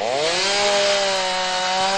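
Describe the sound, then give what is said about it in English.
Chainsaws clearing downed trees after tornadoes in Yazoo County, Mississippi. A loud, steady buzzing engine whine dips slightly in pitch at the start, then holds an even, continuous drone with no voices. “They're using chainsaws to clear downed trees in hard-hit Yazoo County, Mississippi.”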